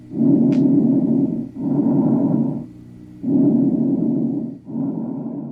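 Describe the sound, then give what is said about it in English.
Bronchial breath sounds with rhonchi, heard through a chest recording: four loud, coarse breaths in an even rhythm, each a rough, low rumbling rasp. Short quiet gaps fall between them, and no one speaks. “ronchi, bronchial breath sounds,”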